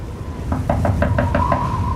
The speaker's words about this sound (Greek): Μα ποιος χτυπάει την πόρτα μέσα στην βαρύ χειμωνιά?